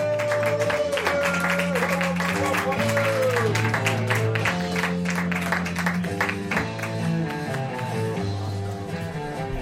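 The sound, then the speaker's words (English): Applause from the crowd at a comedy show rolls on steadily as the next comedian is welcomed. The clapping is dense and holds an even loudness from start to finish. “Let's give it up, everybody, for Alice Rose!”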